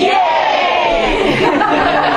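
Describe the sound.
A crowd shouts "Yay!" together on cue, a loud, sustained collective yell of many voices filling the whole moment.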